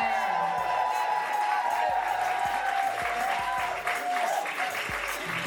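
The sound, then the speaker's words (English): Dense, steady applause from an audience at a live event at a college, with some cheering and shouting voices mixed into the continuous clapping throughout. “And we are live today from Vassar College. Vassar College, make some noise.”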